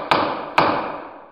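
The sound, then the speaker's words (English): A judge's gavel bangs twice, two sharp, solid wooden knocks about half a second apart, each followed by a short ringing decay. “That's the sound of a gavel.”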